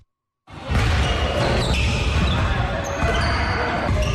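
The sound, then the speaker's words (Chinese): A basketball being dribbled during a community fitness activity, with its thumps blending into a steady, dense background din that starts abruptly after a short silence and stays loud throughout. “运球突破”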